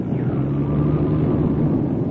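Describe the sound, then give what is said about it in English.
A light aircraft engine coming back to life in flight at about 800 feet, a loud, steady low drone with a continuous humming tone and no break. “I think this motor's coming back. We're now at about 800 feet. I'm going to try to set it down easy.”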